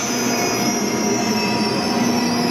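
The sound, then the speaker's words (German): A train at Offenburg station on the Black Forest Railway gives a loud, continuous high-pitched wheel squeal, holding a steady metallic screech with a rail rumble beneath it throughout. “Los geht's am Bahnhof Offenburg. Hier treffe ich einen führenden Experten in Sachen Schwarzwaldbahn.”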